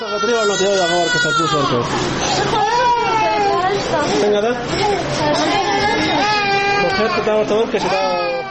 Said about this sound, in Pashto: د چا ماشوم په غېږ کې دي، د چا مخې ته پر کټ ورته پروت دی. ماشومانو خپل رنګونه له لاسه ورکړي تک ژاړ دي.